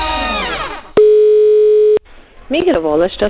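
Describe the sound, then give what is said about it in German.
Steady telephone dial tone in a radio phone-in, one flat, unbroken pitch lasting about a second and cutting off sharply, with voices before and after it. “Das ist das Telefon bei Radio Zürichsee.”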